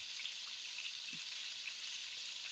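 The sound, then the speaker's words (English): Food balls frying in oil in a grandmother's old cast iron pan give a steady, even sizzle, a continuous fine hiss that stays fairly quiet throughout. “And I got some oil in here. Oopa. I'm going to do that. And I'm just going to fry them in the pan.”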